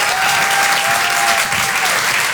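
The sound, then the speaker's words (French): Loud, dense applause from an audience at a live show, cheering an MC after his set. Steady, full clapping sustains evenly for the whole stretch without speech over it. “faites un tonnerre d'applaudissements pour notre MC”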